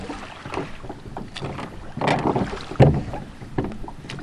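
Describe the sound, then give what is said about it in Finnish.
Oars row a boat across a lake, with water splashing and sloshing in a few uneven strokes over steady wind noise, the louder splashes coming in the second half. “Se on hyvä, että mennään ekologisesti soutuhommalla.”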